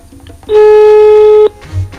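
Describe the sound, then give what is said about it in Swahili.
Ringback tone of an outgoing telephone call: one loud, steady electronic tone lasting about a second, with faint background noise before and after. “Tumpigie simu tuambie jina lake nani na yuko wapi.”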